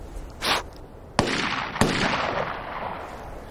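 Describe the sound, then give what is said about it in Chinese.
Gunshots fired into the air: two sharp, loud cracks about half a second apart, each trailing off in a rough, ringing tail, with a softer noisy burst just before them. “你没听出来吗？他们这枪啊，是朝天上放的。”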